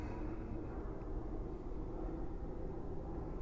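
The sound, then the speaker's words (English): An airplane passing overhead in a clear sky, a faint, steady low roar that holds even throughout with no voices. “the sound of the plane passing in the sky, the clear, pristine sky,”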